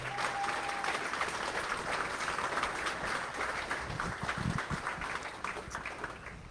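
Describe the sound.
An audience applauds to welcome a speaker at a church gathering, with sustained, dense clapping from many hands at an even level that eases slightly toward the end.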